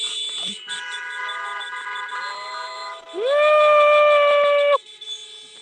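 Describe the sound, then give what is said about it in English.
Car horns honking at a drive-in movie night at a fair. Fainter steady horn tones come first, then one loud sustained blast lasts about a second and a half before cutting off. “They gotta honk some more, man.”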